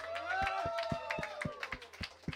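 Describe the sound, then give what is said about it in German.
Faint, steady rhythmic handclaps from the audience at a live radio concert, with ringing sustained tones lingering between the beats. “Und einen riesen Applaus ans Radio Helsinki. Und den allergrößten Applaus an euch natürlich.”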